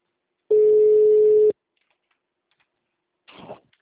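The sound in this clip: A telephone busy tone after a dropped call: one steady, loud, mid-pitched beep lasting about a second, then silence and a short, faint rustle.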